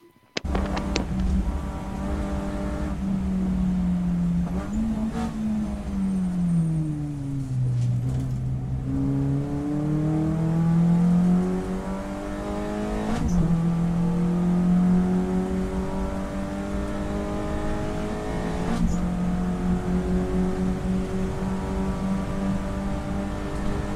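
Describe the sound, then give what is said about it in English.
Race car engine at Snetterton in the wet: a loud, continuous engine drone whose pitch dips and climbs repeatedly with the revs, with no talk. “We have got a video of a Mr. Bradley Gravett bossing the overtake at Snetterton in the wet.”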